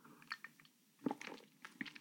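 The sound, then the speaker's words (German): Faint wet mouth noises of a person taking a quick sip of a drink: a few soft slurping and swallowing sounds in short bursts, with no talk. “Ich muss mal ganz kurz einen Schluck trinken. Ich hoffe, das stört nicht.”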